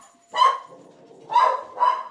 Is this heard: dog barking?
yes